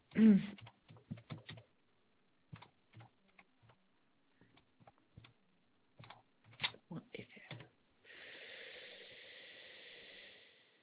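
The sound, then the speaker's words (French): Typing a website link on a computer keyboard, with quiet key clicks arriving in irregular clusters and pauses, followed by a steady soft hiss at the end. “Je suis en train de taper le lien du site.”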